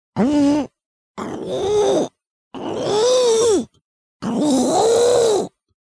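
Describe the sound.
A person imitates a pug's middle-of-the-night noises with four drawn-out, snorting grunts and groans, each lasting about a second, separated by short pauses.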